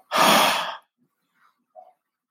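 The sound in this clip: A voice imitating breath to show how the Hebrew letter H sounds: one loud, airy, sigh-like exhalation under a second long, then two faint small sounds and silence.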